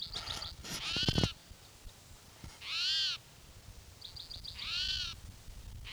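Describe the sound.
A bird sings in short, high chirping trills, heard twice, alongside louder drawn-out harmonic cries that come in a few separate bursts.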